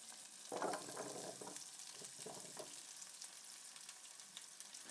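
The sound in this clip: Chopped vegetables, including onion and potato, tipped into a hot pan: a sudden surge of sizzling as they land, then a steady, even frying hiss that continues alone.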